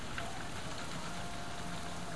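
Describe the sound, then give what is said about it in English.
Heavy rain pouring out of gutters makes a dense, continuous rushing wash of water, steady and unbroken throughout, with no talk. “The rain is coming down. I can see it's just pouring out of the gutters.”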